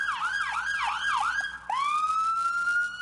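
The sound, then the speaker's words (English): An ambulance siren sounding in traffic: loud, rapid rising-and-falling sweeps repeat several times, then after a short break it shifts to a steady, sustained tone that holds to the end, with no voices. “If an ambulance gets stuck in traffic, even with the sirens blaring and the lights flashing,”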